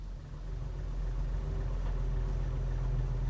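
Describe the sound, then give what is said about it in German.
A car engine runs quietly at night, a steady low rumble with a soft hum above it that holds even throughout, with no voices. “Ich sitze im Auto. Der Motor läuft leise.”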